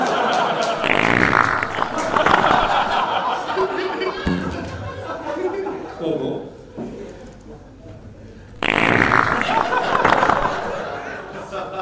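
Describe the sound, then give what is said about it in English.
A fart sound effect played to a room during a vote for the funniest sound effect, with noisy sputtering bursts over lively crowd chatter and laughter. “nominated for funniest sound effect, my personal favourite, the Sizzler fart.”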